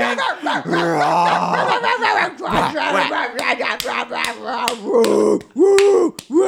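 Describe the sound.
A dog barks and growls in a rapid series of sharp, loud bursts, mixed with people shouting excitedly throughout.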